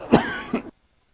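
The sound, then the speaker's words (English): A man coughs twice in quick succession during a church service, a harsh, full first burst followed by a shorter second one, then silence. “I'm convinced that God's going to make sure everybody in here knows I have a cough, then he's going to heal me.”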